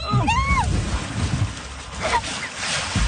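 A canoe tips over and newlyweds fall into a river after their wedding ceremony: a few seconds of rough water noise and wind-buffeted microphone rumble, with scattered splashes.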